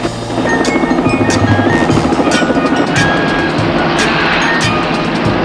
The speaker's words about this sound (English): Donnie takes the helicopter up again as Jim reloads his handgun.